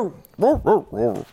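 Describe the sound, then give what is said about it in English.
A human voice imitates a dog barking, giving three short, gruff woofs in quick succession. “That's barking as a sign of our newfound respect for the Georgia Bulldogs”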